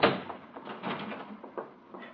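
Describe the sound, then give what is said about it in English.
A door being forced open under pounding, giving way: a series of heavy wooden knocks, thuds and creaking strains following one another over about two seconds. No voices. “The door's giving way.”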